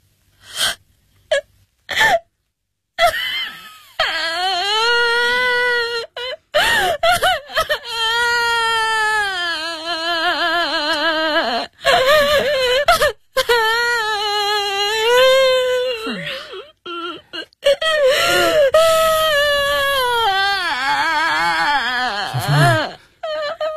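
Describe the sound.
Loud, anguished crying fills the stretch: long wailing sobs with quavering pitch, broken by sharp gasping breaths and brief silences, rising into drawn-out high moans.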